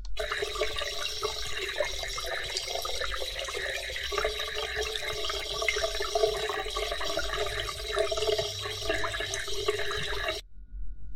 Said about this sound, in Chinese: 接下来我们两个人一起冲水，冲干净